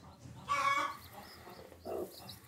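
A broody farm hen clucks beside her newly hatched chick: two short, loud bursts of clucking, the first longer, separated by a quieter stretch of low farmyard background noise.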